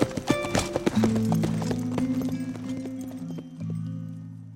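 Horse hooves clip-clop as a rider's mare carries him away, a few sharp, quick hoofbeats at the start giving way to a steady low hum that runs through the rest.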